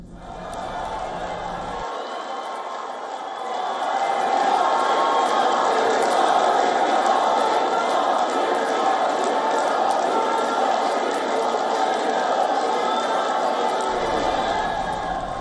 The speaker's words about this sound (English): the Indian Prime Minister also addressed a very large gathering of the Indian diaspora at The Hague, where he was welcomed with some loud, rapturous cheering.